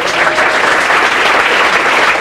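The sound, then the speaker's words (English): Audience applause at a live event, a dense, loud, continuous wash of clapping hands that holds steady throughout with no individual claps standing out. “let's all give her a round of applause.”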